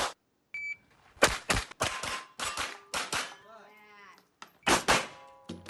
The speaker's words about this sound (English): Change clip, reload. Oh, that double tap. That was Ebony. Double taps are awesome.